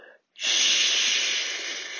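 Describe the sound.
Long breathy exhale with an audible hiss during a paced breathing exercise, starting after a brief pause and holding steady before fading slightly.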